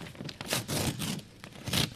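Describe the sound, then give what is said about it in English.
A paper envelope is ripped open in a few quiet, raspy tearing bursts of uneven length. “rip open that envelope and tell us the moral of today's show”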